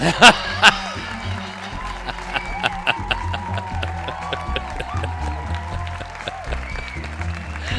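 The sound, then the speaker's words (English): A studio audience cheering and applauding: scattered sharp claps and a rising, excited crowd noise run under ongoing talk. “Studio audience.”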